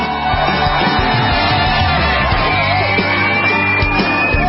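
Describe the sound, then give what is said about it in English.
A studio audience cheers loudly for a guest's entrance on a talk show, with dense yelling, shouting and whooping that holds steady for the whole stretch. “Please put your hands together, ladies and gentlemen, and welcome Hilton Beckham.”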